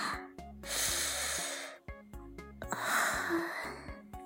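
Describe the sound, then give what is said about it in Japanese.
Deep breathing from a nervous person steadying themselves, two long, breathy inhale-exhale passes with a short pause between, fairly loud over soft music underneath. “深呼吸して。”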